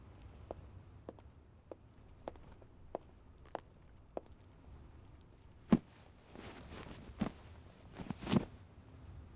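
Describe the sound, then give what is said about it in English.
Footsteps of someone walking back over: a steady series of faint, evenly spaced taps, then a few louder thumps near the end. “Oh, let me walk back over and pick you up.”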